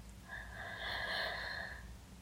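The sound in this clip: A single slow, soft breath in, faint and breathy, swelling toward the middle and fading after about a second and a half, with no talk around it.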